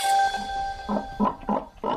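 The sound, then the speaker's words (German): Piglets grunting in a few short, rough bursts that come one after another near the end, with fainter grunts before them. No voices are present. “Ob diese Ferkel sich gerade langweilen oder nicht, das wissen wir nicht.”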